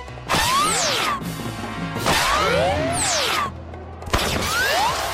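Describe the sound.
A crusher smashing, heard as three loud bursts of heavy mechanical crashing and clanking with swooping, squealing tones, each burst separated by a short break.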